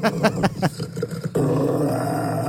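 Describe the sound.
A rottweiler growls. A few rough, pulsing grunts lead into a steady, low, rumbling growl that holds to the end, like an idling motor.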